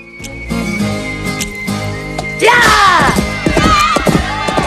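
Hooves and snorts of a packed horse being mounted and ridden out through a town: scattered thumps at first, then a louder burst of whinnying, sweeping calls over clopping in the second half.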